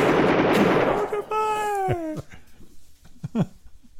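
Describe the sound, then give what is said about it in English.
Gunfire in a film shootout scene: a burst of dense noise gives way to several sharp, scattered shots beside a descending, voice-like tonal cry, ending in fainter cracks. “Neither of Corleone is injured in the attack except for their pride. after all those munitions were expended, no one got injured.”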